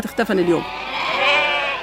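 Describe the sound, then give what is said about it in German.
Sheep and goats bleating, livestock kept by a displaced family who fled Ras Ain al-Auja; a few wavering, nasal bleats of fairly high pitch, the first short and the later one longer and drawn out. “Nur wenige Dutzend Schafe und Ziegen konnten Haitham Sayed und seine Familie bei ihrer Flucht aus Ras Ain al-Aosha mitnehmen.”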